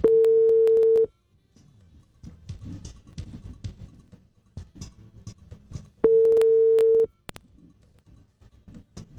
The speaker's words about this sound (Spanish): Está rechazando la llamada. ¿La está rechazando? Sí. Dios mío, no le ha contestado, ya la rechazó.